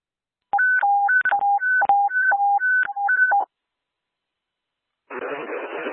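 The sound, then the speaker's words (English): Telephone keypad tones sound during a daily phone test at an emergency communications center: a rapid run of many crisp, evenly spaced beeps, then silence, then a steady burst of hissing noise. “Hotel Unit, stand by for the daily phone test.”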